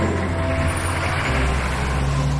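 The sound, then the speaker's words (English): A Humvee drives off at a military base, its engine giving a loud, steady low rumble under broad, continuous road noise with no clear change over the short span. “He rushes into an Humvee. He drives off.”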